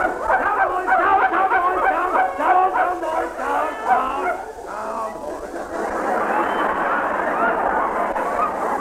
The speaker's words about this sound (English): What are you doing here in my bedroom with these dogs? Well, I was sousing in on a fox. The blighter ran in here.